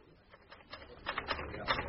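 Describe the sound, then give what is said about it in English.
Typewriter keys clatter as a report is typed in an inspector's office, a faint, irregular run of clicks that grows busier and louder in the second half. “He was typing out his report.”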